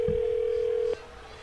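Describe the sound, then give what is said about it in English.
A steady, single-pitched telephone ringing tone heard on the caller's end during a call. It holds for about a second, then cuts off abruptly, leaving faint line hiss. “Oh, is your phone ringing?”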